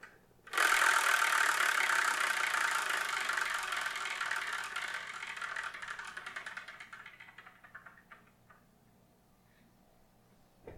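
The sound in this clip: A prize wheel spun to choose the next manga title for review gives off a long rattling whir of rapid ticks that gradually slows and fades out.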